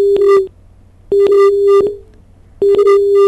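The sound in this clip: Busy tone on a disconnected phone call: a steady, mid-pitched electronic beep sounds in three loud bursts separated by short silent gaps, heard alone.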